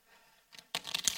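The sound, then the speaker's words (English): Uno playing cards being shuffled: a faint brief rustle, then a quick, dense flurry of crisp riffling clicks and snaps that ends abruptly. “But here's the problem in my home with Uno is I'm the only one in my family that can shuffle.”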